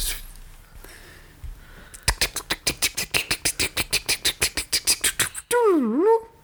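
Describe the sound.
Mouth-made clicking imitates a spinning picker wheel: a long, rapid run of many even clicks, then a short warbling vocal tone that wavers up and down.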